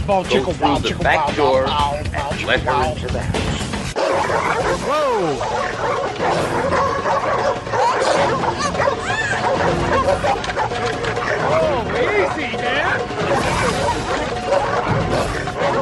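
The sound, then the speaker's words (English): Dogs bark repeatedly in a backyard behind a fence, loud overlapping woofs mixed with yips and whimpers, continuing throughout under people talking and shouting. “Those dogs don't like superheroes.”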